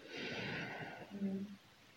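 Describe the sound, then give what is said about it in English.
A deep inhale during a guided breathing exercise, a steady, soft, airy rush of breath drawn in for over a second, then tapering off. “breathing in and then breathing out, pushing that air through pursed lips out of your body, breathing in”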